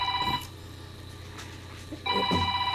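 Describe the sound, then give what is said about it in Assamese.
A telephone rings with an incoming call. An electronic ring tone sounds in two bursts, a short one at the start and another near the end, with a quieter gap between them. “বাইদেউৰ phone এটি আহিছে”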